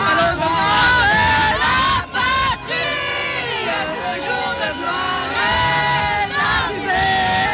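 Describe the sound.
Crowd celebrating in the street at Pontarlier after France beat Croatia in the football World Cup final: loud, dense shouting, cheering and whoops, sustained throughout with a couple of brief dips.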